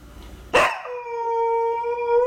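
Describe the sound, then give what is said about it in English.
A dog howls at the mailman outside: one long, loud, steady howl that holds a fairly even pitch, following a short, sharp burst at its start. “I need you to translate what the dog is saying.”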